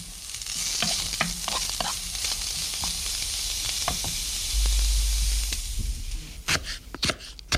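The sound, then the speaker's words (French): Chopped onion sizzling in a hot pan, a constant frying hiss with scattered stirring taps and scrapes, ending in a quick run of louder clatters. “Voilà, l'oignon est à rissoler.”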